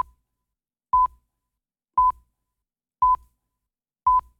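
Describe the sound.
Radio time-signal beeps: four short, identical mid-pitched tones spaced evenly about one second apart, clear and alone against silence.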